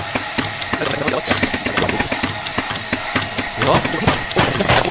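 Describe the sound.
A GS3 espresso machine brewing without pressure profiling gives a steady hissing hum, dotted with irregular small ticks and clicks that run through the whole stretch.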